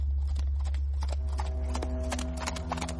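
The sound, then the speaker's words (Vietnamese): Hooves clip-clop as an old horse-drawn cart in the old Mekong Delta countryside starts rolling, with many sharp, uneven hoof strikes over a constant low rumble. “Có tiếng trồi quất vào mông ngựa mấy cái, xe từ từ lăn bánh đi.”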